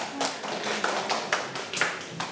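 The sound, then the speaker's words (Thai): Children clap for a classmate, a quiet, dense patter of many small hands applauding steadily throughout with a few sharper claps. “อ่ะเก่งมากค่ะอ่ะเด็กๆปรบมือให้เพื่อนลูก”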